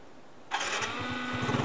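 A newly bought motorbike engine, suspected of a faulty spark plug, starts abruptly after a quiet moment. It settles into a loud, steady running hum with a faint, rapid pulsing.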